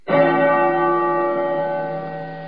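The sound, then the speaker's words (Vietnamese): A temple bell rings from the monastery below in the mountains. One loud strike blooms into a rich, humming tone that fades slowly over a couple of seconds. “Gió đưa tiếng chuông chùa từ phía dưới vọng lên, khiến người nghe như trút hết phiền tục.”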